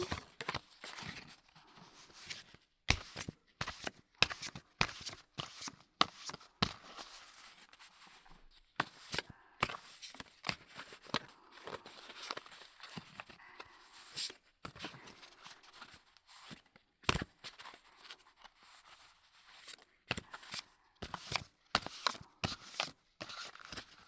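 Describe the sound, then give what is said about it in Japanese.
Playing cards are shuffled by hand in several different ways, giving many quick, crisp riffling and flicking bursts in an uneven rhythm, with no voices. “マジシャンではないけど、カードを扱ってるとさ、ある程度いろいろなシャッフルはできるんだよね。”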